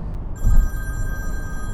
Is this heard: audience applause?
no